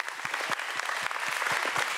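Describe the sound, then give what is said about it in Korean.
Applause from an audience for a traditional folk performance troupe at a staged show. Many hands clap at a fairly soft, even level, with individual claps standing out in a loose, continuous patter and no voices on top. “우리 세한 전통연희단 큰 박수 한번 부탁드리겠습니다”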